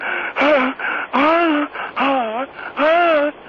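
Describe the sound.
Heavy, moaning breaths from a caller on the phone: four long, voiced, wheezy gasps, each wavering up and down in pitch, with short pauses between them.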